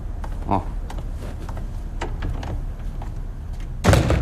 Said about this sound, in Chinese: 你把门关上，把门关上，坐下来，我跟你谈点事儿。